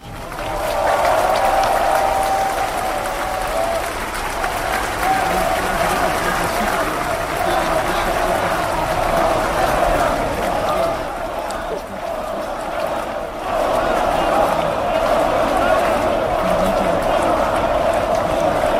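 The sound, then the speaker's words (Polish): Crowd of several thousand applauding and cheering during an American president's outdoor speech in Poland. A dense, steady roar of clapping and shouting carries voices mixed in throughout, dipping briefly near the middle before swelling back. “Kilka tysięcy osób jeszcze zanim amerykański przywódca pojawił się na mównicy, skandowało jego nazwisko. Później jego przemówienie także wielokrotnie było przerywane przez publiczność.”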